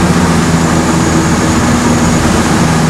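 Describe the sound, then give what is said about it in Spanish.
Steady engine drone of a Twin Otter aircraft of the Peruvian Air Force in flight over Lima at about 1,140 feet. Loud, even and continuous, with a strong low hum under a broad hiss. “Y nos encontramos en este momento sobrevolando el cielo limeño a 1140 pies de altura aproximadamente en el Twin Otter, una de las aeronaves de la Fuerza Aérea del Perú.”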